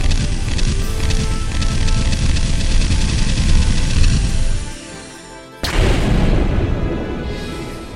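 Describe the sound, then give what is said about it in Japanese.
A full salvo of weapon fire at a locked-on target, with explosions: a dense, loud, continuous roar of blasts that fades out, then one sudden heavy burst that rumbles on. “ターゲット、ロックオン、全弾発射まで、3、2、1、ファイヤ”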